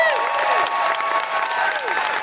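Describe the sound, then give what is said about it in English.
A live audience at a show in Salford applauds with loud, continuous clapping that holds steady for the whole stretch without a break. “Big round of applause for Ruth Madeley.”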